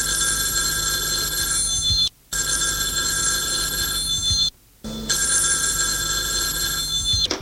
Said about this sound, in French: téléphone a sonné.